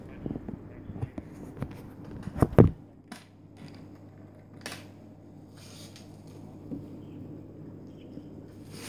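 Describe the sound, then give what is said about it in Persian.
Ballpoint pen writing on paper, a faint, irregular scratching with a few sharper strokes over a low steady hum. “اون شماره رو بگو که من با خودکار بنویسم”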